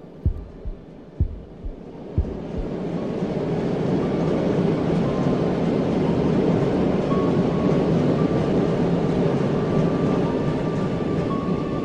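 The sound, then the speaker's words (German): The roar of an approaching train opens with a few low thuds, then a deep, loud rumble swells in over a couple of seconds and holds steady to the end. “Wäre da nicht das markerschütternde Dröhnen des herannahenden Zuges gewesen?”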